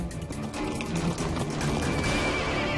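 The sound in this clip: Horse neighing in a promo for Hungary's National Gallop horse racing festival, a loud, continuous whinny over a dense, noisy background.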